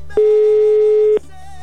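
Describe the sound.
Telephone tone on an outgoing call that is ringing: a single steady mid-pitched beep lasting about one second, loud and clean, over a faint low background hum.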